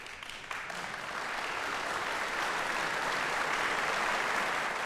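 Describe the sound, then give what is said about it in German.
Concert audience applauding a pianist in a concert hall, a dense, steady wash of clapping that swells slightly and holds loud and even throughout, with no voices. “Hier kommt also jetzt noch der Beifall des Bremer Publikums.”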